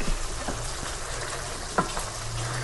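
Faint running tap water rinsing preservative off canned food, a soft, steady hiss and patter that stays low throughout, broken by one brief clack partway through.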